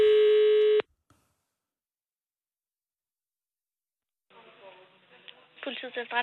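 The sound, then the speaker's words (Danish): A single steady telephone ringing tone sounds on an outgoing call, one clear burst that stops abruptly, followed by a long silence and then people talking. “Derfor ringer vi til PET.”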